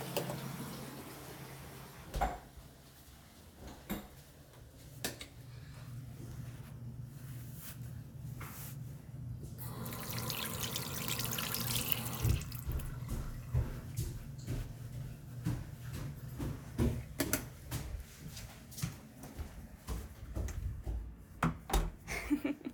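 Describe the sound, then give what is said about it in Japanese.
Water runs from a tap while hands are washed: a steady hiss with many scattered knocks and clatters, fuller in the middle stretch. “じゃあ流します。手洗いに行きますね。”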